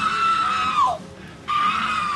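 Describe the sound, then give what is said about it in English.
A handcuffed man screams inside a police squad car: a long, high-pitched wail that drops in pitch as it breaks off, a brief gap, then a second sustained scream. “Here, the handcuffed suspect is seen screaming inside a squad car.”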